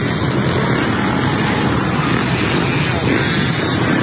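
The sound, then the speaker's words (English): A loud, steady engine drone from dirt bikes, ATVs and four-wheelers riding around memorial grounds during a Juneteenth celebration in Washington, D.C., a continuous motorized roar with no clear breaks. “So a bunch of people got their dirt bikes, their ATVs, their four-wheelers, and just decided they're just going to go rampage around the memorial there.”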